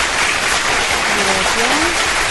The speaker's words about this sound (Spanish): está para Carlitos Imán, un fuerte aplauso.